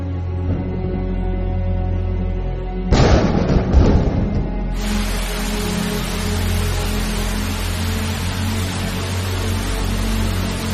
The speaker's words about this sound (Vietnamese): Trời mưa ngập nước thế này, vị sa môn đó chắc đã bị nước lụt nhận chìm.